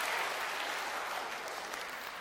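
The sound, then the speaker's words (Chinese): Audience applause for singers at a church gathering in a 300-year-old church at the University of Toronto: a dense, steady patter of many hands held at an even level throughout. “给他们一个掌声，鼓励他们一下，赞美主耶稣。”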